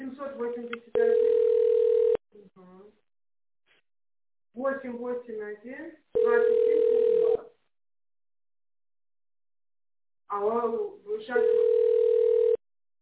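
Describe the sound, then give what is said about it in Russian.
A telephone ringback tone sounds while a call is forwarded to a secretary: three long, steady, even-pitched tone bursts, each following a short recorded voice announcement. “Ваш звонок будет направлен секретарю.”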